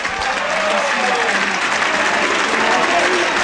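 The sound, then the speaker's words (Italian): Football stadium crowd applauding as Ascoli's number 25 is substituted off at the Del Duca: a dense, continuous roar of clapping mixed with crowd noise, loud and steady throughout. “Rizzopinna esce, secondo me è stato uno dei migliori in campo, il numero 25, applauditissimo dal Del Duca”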